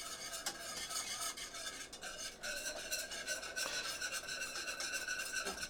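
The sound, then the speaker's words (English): A whisk stirring chocolate and milk in a pot close to a simmer gives a steady, continuous scraping and rasping. The quick strokes run without pause and no one speaks. “I'm going to use a whisk, just kind of keep that on there, and we're close to a simmer, and that's what you bring it to”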